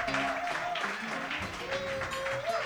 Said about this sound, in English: I certainly appreciate your applause.